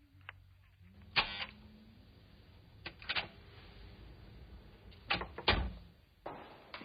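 A door being opened for a visitor: a few sharp clicks and knocks of latch and handle, spaced irregularly, over a faint steady low hum.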